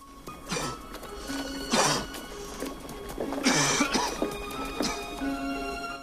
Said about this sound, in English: walks up and down, clapping his arms around himself as he coughs and sniffs